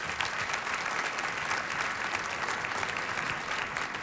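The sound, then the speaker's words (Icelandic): Audience applause for a pianist at a concert, a soft, even patter of many hands clapping that continues steadily without a pause. “Við gefum honum gott klapp.”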